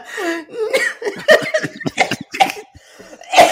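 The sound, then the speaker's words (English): A man coughs and sputters in short bursts after choking on his own spittle, with laughter mixed in around the coughs. “I just completely choked on my own spittle.”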